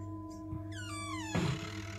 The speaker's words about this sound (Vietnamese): Bất ngờ cánh cửa buồng vang lên kẽo ca kẽo kẹt.